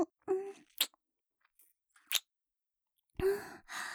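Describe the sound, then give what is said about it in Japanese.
Wet mouth sounds of something being licked up carefully: a few short smacking, slurping bursts separated by quiet gaps, framed by soft voiced breaths and sighs. “丁寧に舐め取らないと。”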